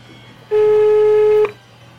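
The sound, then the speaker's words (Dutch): A single steady telephone ringing tone sounds for about one second as a call to a municipal office line is put through to a staff member. The beep is clean, mid-pitched and heard alone. “Wij verbinden u nu door met de medewerker.”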